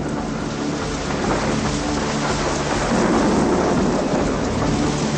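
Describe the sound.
A thunderstorm with heavy rain gives a dense, steady hiss of downpour, joined by a deep rolling rumble of thunder that swells in the second half.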